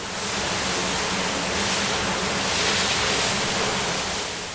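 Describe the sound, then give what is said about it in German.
A hose sprays water to clean an indoor zoo enclosure, making a dense, steady rushing hiss. It swells slightly in the middle and holds for several seconds with no voices. “Und während er mit dem Schlauch die Innenanlage abspritzt,”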